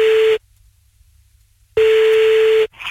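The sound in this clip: A telephone line tone plays as a call is placed: two steady, single-pitched tones separated by a long silence. The first is cut short and the second lasts nearly a second.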